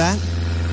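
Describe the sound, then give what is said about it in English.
A small single-engine aircraft far overhead makes a steady, low droning hum that runs beneath a short spoken question. “To us, it's just a small, single-engine aircraft far overhead.”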